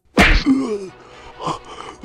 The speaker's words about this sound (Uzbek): Zubayrning yuziga shiddatli bir musht kelib tushdi.